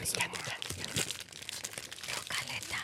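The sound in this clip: Crinkling of a plastic candy bag of zombie Sour Patch Kids, a steady run of crackly, rustling crunches that continues for about three seconds with brief louder bursts.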